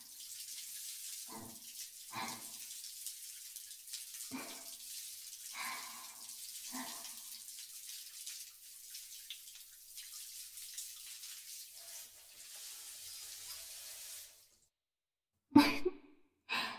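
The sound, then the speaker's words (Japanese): Running water rinses soap foam away in a bath, a steady splashing hiss with a few brief surges, then it stops abruptly and short splashy bursts follow. “あわあわ、きれいに流れましたね。”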